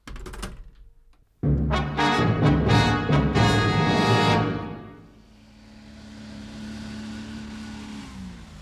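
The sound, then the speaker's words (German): A car arrives with a loud, sudden burst of revving engine and rapid, rattling pulses. The noise then fades to a steady, quieter hum as it settles. “Na endlich, da ist der Wagen.”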